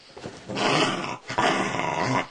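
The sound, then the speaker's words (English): A dog growls in two loud, rough, sustained bursts separated by a brief pause, with no talking. “You stop attacking the dog. Not attacking him.”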